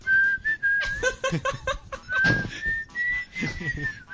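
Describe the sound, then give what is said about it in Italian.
Several people whistle into a studio microphone with no anti-pop filter, holding a sustained high tone that wavers slightly. Breathy bursts and mic pops break through in between. “quando avete smesso di fischiare tutti nel microfono.”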